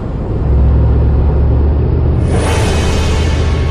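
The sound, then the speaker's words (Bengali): A jeep races along a mountain road toward Siliguri, a loud, continuous engine rumble mixed with road noise that turns hissier and brighter partway through. “আমাদের zip শিলিগুড়ির রাস্তা ধরল।”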